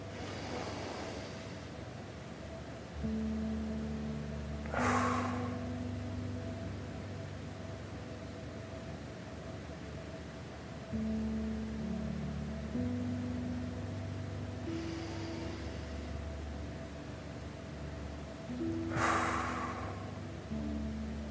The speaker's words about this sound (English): I just start my breath. I breathe in through my nose and out through my mouth, but whatever feels right for you. So this is what it looks like for me.